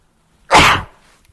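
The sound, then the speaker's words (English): A single sharp sneeze bursts out loud and alone, rising fast and trailing off within half a second. No talk is heard around it. “I don't have a mute button here, so I apologize for that sneeze.”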